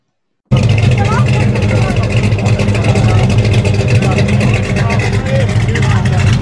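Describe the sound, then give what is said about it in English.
A drag car or street hot rod with a cammed pushrod V8 rumbles in after a moment of silence, holding a loud, steady, deep engine growl. “That's a drag car. Or it could just be a hot rod out cruising the street. It's a cammed V8, yeah. Push rod V8.”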